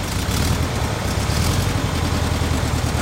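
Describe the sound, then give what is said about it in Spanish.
A white convertible Beetle drives out of a garage onto the street. Its engine gives a steady low rumble under broad, even noise that stays level throughout, with no voices. “El joven está al volante de un escarabajo blanco descapotable que sale a la calle.”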